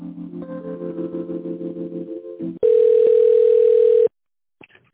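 A telephone tone sounds while a call is being transferred: a single steady, loud beep lasting about a second and a half, preceded by a lower droning tonal passage and followed by silence.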